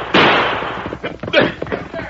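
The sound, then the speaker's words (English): Two gunshots ring out in an old Western radio drama, a sharp loud crack followed about a second later by a second blast, each trailing off in a noisy rumble. “Quick, fire two shots. Call the men in.”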